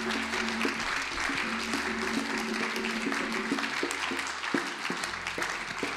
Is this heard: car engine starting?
no